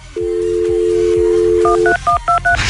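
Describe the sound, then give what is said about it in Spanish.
A telephone line plays a steady, loud dial tone, which cuts off as a quick run of a few short two-pitch keypad beeps is dialed. “Aquí en la línea telefónica, vamos a marcar.”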